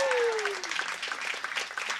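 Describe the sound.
Applause for a jazz pianist at a live jazz concert, many hands clapping in a dense, crackling wash of moderate loudness that holds steady throughout.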